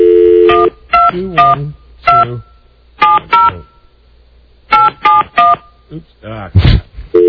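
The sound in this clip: A telephone number is dialed on a touch-tone phone, giving short, clear keypad beeps in a few quick bursts with brief pauses between them.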